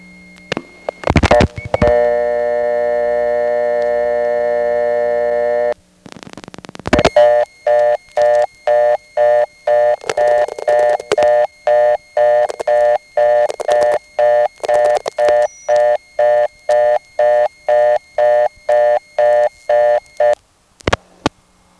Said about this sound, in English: You could hear some interesting crosstalk there. There were digits followed by the 5800 Hz ANI tone.